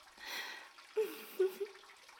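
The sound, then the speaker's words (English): Tap water runs in a faint, steady hiss, with a few short tonal sounds breaking through it. “I'll just keep the water running. Maybe I could actually let the water hit me in that special spot.”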